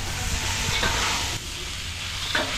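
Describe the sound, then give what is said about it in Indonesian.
Stir-frying podang mango with sweet soy sauce in a pan, a constant loud sizzle broken by a few scraping strokes of the stirring utensil, with no talk. “Terakhir, tambahkan kecap manis dan oseng-oseng mangga podang sudah bisa disajikan.”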